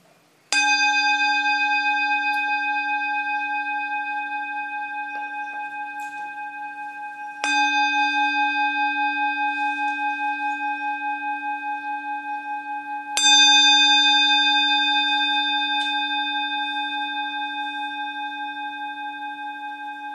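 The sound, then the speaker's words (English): A meditation bell is struck three times at even, unhurried intervals. Each strike blooms into a clear, sustained ringing tone with bright overtones that slowly fades until the next strike, with nothing else heard. “First, please listen to the sound of the bell.”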